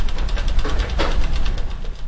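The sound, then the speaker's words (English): Mobile archive shelving rolls open as a tumble wheel is turned, giving a steady low mechanical rumble with a fast, rhythmic rattling pulse that holds at an even loudness throughout. “Beyond this lab, with the turn of a tumble wheel, scores of shelves are revealed, each with stacks of books, documents, and papers.”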